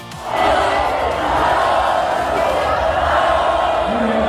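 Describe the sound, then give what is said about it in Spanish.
A crowd of spectators at a Formula 1 circuit chanting for Fernando Alonso to race another season: a loud, sustained roar of massed voices that swells early and holds steady throughout. “esta es la imagen que se producía hace unos instantes con todo el público que había ido a ver la jornada de hoy, diciéndole a Fernando Alonso que siga un año más en la Fórmula 1.”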